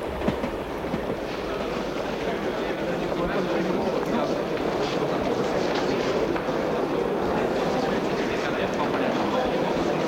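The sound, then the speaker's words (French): A train pulling into a station: a continuous rumble of rail wheels with clickety-clack clatter, steady and fairly loud throughout. “Après une demi-heure de trajet, le train s'arrête dans une gare.”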